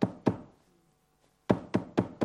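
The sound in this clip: Knocking on a door: two firm knocks, a short silence, then a further even-paced run of knocks, solid and fairly sharp.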